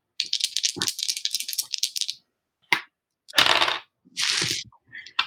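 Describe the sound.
Dice rattle during a tabletop game: a long clattering run of rolls, then a few shorter, sharp rattling bursts separated by silence.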